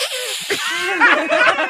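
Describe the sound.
A human voice imitates a monkey with hoarse, breathy, wavering shrieks and chattering squeals. The pitch bends up and down through a run of quick bursts over less than two seconds.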